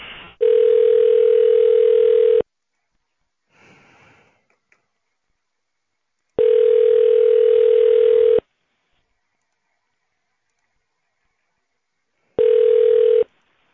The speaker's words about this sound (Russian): Не могли бы вы соединить меня? Да, конечно, сейчас.